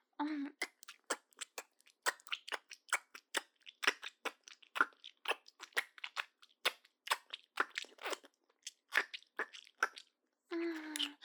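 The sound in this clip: Crunchy chewing of pizza: a rapid, irregular stream of many crisp bites and crunches, with brief silences between them.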